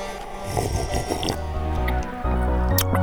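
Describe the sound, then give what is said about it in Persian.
Someone takes a sip of a drink, with soft wet slurping and swallowing sounds over a steady low background hum. “اجازه بدید من یه قلوپ از این بخورم.”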